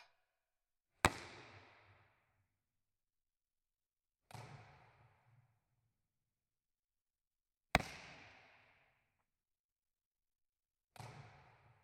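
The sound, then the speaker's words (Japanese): A ball thrown and caught in a game of catch between volleyball players: four sharp smacks at steady intervals, each a crisp impact followed by a short decaying thud, with no talk between them. “さ、次はキャッチボール。私向こう行くね。 行くよ。じゃなかった。行きまーす。”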